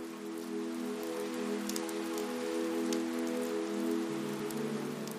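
Steady rainfall, raindrops pattering in a dense, even hiss that stays constant throughout, over a soft sustained tonal drone.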